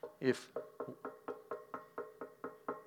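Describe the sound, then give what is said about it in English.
Faint knocking on a door: many evenly spaced knocks in a steady rhythm, with the first one louder than the rest. “Behold, I stand at the door and knock. I want you to imagine if that door right there,”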